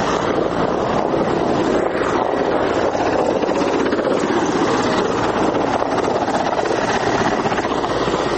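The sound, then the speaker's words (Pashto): An Afghan forces Mi-15 military helicopter circles overhead, a dense, constant roar of rotor and engine noise mixed with wind buffeting, unchanging in loudness throughout. “زموږ پر سر د افغان ځواکونو دریغه جنگی می 15 هلیکوپټر هم ګرځي”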